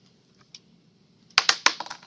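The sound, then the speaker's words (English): A die rolled on a table during a board game: a soft tap, then a sudden burst of sharp, rapid clattering clicks as it bounces and rattles before settling within a second. “we roll the die”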